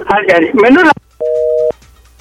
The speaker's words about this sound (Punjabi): sorry ਜੀ, ਤੁਹਾਡੀ ਕਾਲ ਆ ਜਿਹੜੀ ਡਿਸਕਨੈਕਟ ਹੋ ਗਈ, ਤੁਸੀਂ ਦੁਬਾਰਾ ਕਾਲ ਕਰ ਲਓ